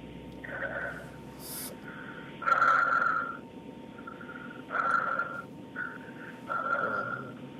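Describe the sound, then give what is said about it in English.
Heavy breathing in and out, done on instruction: several loud, rasping breaths with a whistling, nasal tone, separated by short pauses and growing stronger at irregular intervals. “Okay, just breathe in and out 5 times heavily.”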